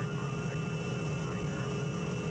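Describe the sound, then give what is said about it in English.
Airplane engine droning as the aircraft comes in to land at a resort, a steady low hum with a faint sustained whine, constant in loudness throughout. “Your attention, please. We will soon be landing at Westworld, the ultimate resort.”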